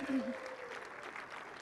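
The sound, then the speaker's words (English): An audience applauds volunteers with a soft, steady wash of clapping, and a speaking voice is heard briefly at the start. “so give a hand for our volunteers”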